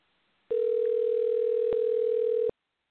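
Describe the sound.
A steady, single-pitched telephone tone sounds while a call is being placed. It holds at one level for about two seconds, then stops abruptly, with nothing else heard.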